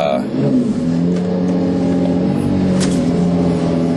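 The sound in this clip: Engine of a 2022 Lamborghini Aventador LP 780-4 Ultimae driving off out of a driveway in sport mode with manual shifting: a loud, steady, throaty drone with layered tones held throughout.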